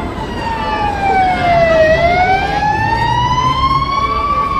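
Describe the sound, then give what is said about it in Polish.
Loud emergency vehicle siren wailing in one continuous tone that sweeps down in pitch and then climbs slowly back up, with bright harmonics over a low steady rumble. “Ja nie potrafię rozpoznać, czy karetka jedzie, czy straż, czy policja. A mają różne sygnały.”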